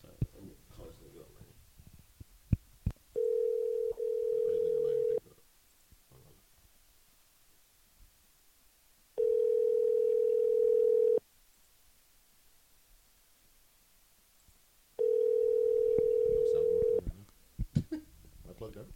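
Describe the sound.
A telephone ringback tone plays while a call is placed: three long, steady, mid-pitched beeps with several seconds of quiet between them. Faint clicks and rustling fill the gaps.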